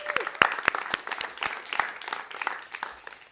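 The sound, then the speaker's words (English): Audience applause at a live storytelling event in Portsmouth, the night before Halloween: a fairly soft, loose patter of many hands, with distinct individual claps popping out of the wash. “Give yourself a hand for being here.”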